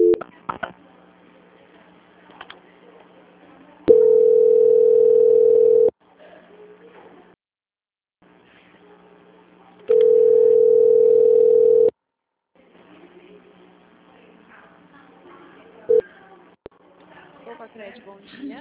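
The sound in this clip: Telephone line tones during a call transfer: two long, steady, loud tones of about two seconds each, separated by a quiet, hissy line with faint murmurs.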